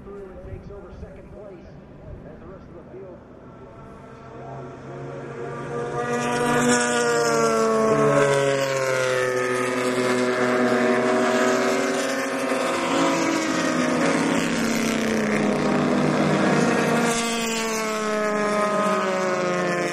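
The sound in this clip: Racing vehicles pass along a circuit's back straight toward the start-finish line, an engine roar that swells after a few seconds into a sustained, droning whine with shifting pitch, accompanied by wind noise.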